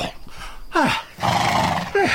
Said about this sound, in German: Der König besteigt das königliche Pferd